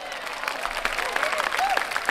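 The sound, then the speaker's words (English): Brief burst of applause with crowd noise, a dense rustling patter of clapping at moderate level with no clear break. “Clap it up for them.”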